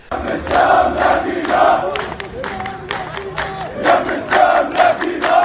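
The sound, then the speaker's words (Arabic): A large crowd at a protest march in the occupied West Bank and Jerusalem chants takbir and slogans in loud, rhythmic, repeated phrases, with sharp shouts and scattered clapping between the chanted lines. “شهدت الضفة والقدس المحتلتان مسيرات حاشدة طافت قراهما وبلداتهما ومخيماتها وسط هتافات التكبير والتهليل وشعارات مؤيدة للمقاومة وعرين الأسود.”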